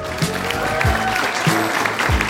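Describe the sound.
Applause from a comedy show audience welcoming a comedian to the stage: a steady, dense wash of clapping that holds at an even level for the whole moment.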